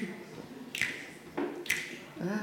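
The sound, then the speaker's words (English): Finger snapping from an audience asked to click along, a couple of sharp, bright snaps standing out over a low murmuring background and a voice. “This requires audience participation, so all we need to do is click your fingers.”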